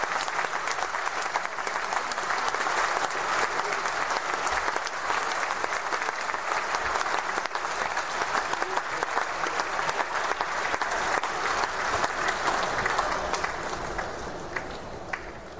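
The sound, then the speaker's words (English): Sustained audience applause, dense and steady clapping that keeps going for the whole stretch at an even, loud level before easing slightly at the very end. “Can I get the claps? You know they be late on the claps. Come on. Yeah. Claps, man.”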